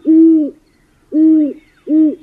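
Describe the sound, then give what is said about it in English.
Three loud, low owl hoots, each lasting about half a second with short silent gaps between them, heard alone with no voices. “To see and mostly listen for screech owls, great horned owls, and the barred owl.”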